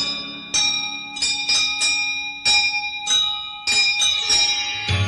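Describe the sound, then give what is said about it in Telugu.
Temple bells ring rhythmically, a quick series of bright, ringing metallic strikes in a steady pulse. Each clang overlaps the fading resonance of the one before. “నీ గుడి గంటలు లయతో మ్రోగా”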